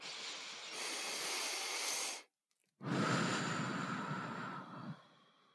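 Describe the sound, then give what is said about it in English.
Someone takes a deep breath, producing two long, airy, rushing breath sounds separated by a short silent pause. The breaths are soft and clear, with no talk. “I love for you to take a breath. Let's take a deep breath”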